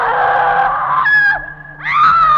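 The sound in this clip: A shrill, strained scream rings out in an old stone building as a heavy door opens, rising into a couple of drawn-out cries with a brief dip between them, loud and with no talk over it.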